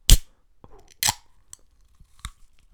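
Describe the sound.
Sharp clicks and crackles while someone tries a can of apricot Red Bull energy drink: a few short, crisp bursts spaced apart, with smaller faint ticks between them and no talking.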